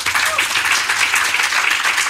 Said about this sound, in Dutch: Mag ik applaus